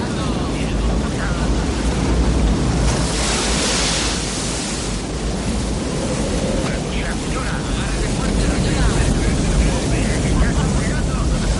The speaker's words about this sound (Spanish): época de lluvias y enormes olas zarandean la embarcación.